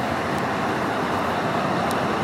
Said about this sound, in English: God damn, this traffic.